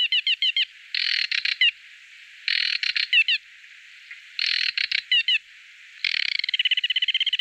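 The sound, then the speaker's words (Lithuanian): Song of the aquatic warbler, a rare bird: high, buzzy chattering phrases of rapid stuttering notes, repeated in several bursts separated by brief pauses, and ending in a fast, even trill. “šis paukštelis yra ypatingas, gal net ir atspėjote, tai buvo retoji meldinė nendrinukė”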